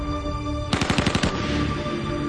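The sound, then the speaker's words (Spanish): A burst of submachine gun fire, a rapid string of several sharp, loud shots lasting about half a second, with a noisy ringing tail afterward and no talk. “Kaun reacciona y dispara una ráfaga que abate a Scafaro y que perfora el chasis del helicóptero.”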